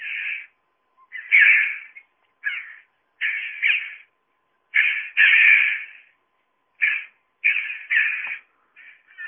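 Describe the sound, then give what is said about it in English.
Red-billed chough calls, a corvid giving harsh, raspy, high-pitched cries. Many loud, separate calls of varying length are spaced by short silences throughout. “The chough, who sounds like this.”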